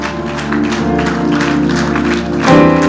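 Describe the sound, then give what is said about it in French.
Church audience applauding and cheering during a worship service, a continuous bed of clapping mixed with sustained music or voices, swelling louder near the end. “Si tu as été béni, acclame le Seigneur.”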